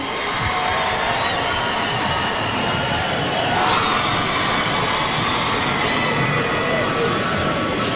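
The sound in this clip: Loud crowd cheering for a singer at a concert, a continuous roar of shouting voices that holds steady throughout.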